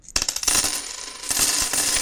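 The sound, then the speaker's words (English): A handful of coins is handed over, clinking and jingling in a quick cluster of metallic clicks. A second burst of jingling follows after a short lull. Bright and fairly loud, with no talk. “I'm going to give you this handful of coins and throw you out the door.”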